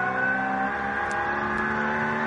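Mülner Motorsport Porsche race car running on a circuit, a continuous high engine drone with steady harmonic whine that holds level throughout, no voices.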